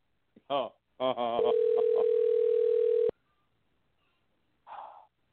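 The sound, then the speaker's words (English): A telephone dial tone heard while a number is being dialed: a steady, mid-pitched tone holds for about two seconds and cuts off abruptly. Short voice-like sounds come just before it, and a brief soft sound follows after a pause. “I am dialing the number now”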